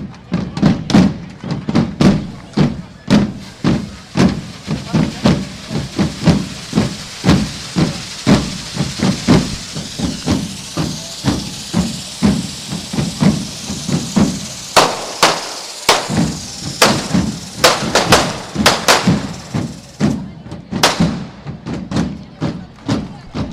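Firecrackers and fireworks going off at the final lighting of a devils' group fire run, many sharp rapid bangs in a steady stream over a continuous hissing spray, with a brief lull partway through before the bangs resume.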